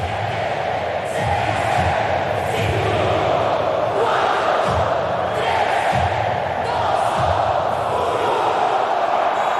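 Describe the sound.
A crowd roars at Monterrey Stadium before a 2026 FIFA World Cup Group F match between Sweden and Tunisia. The loud, continuous noise is full of shouts and chanting voices.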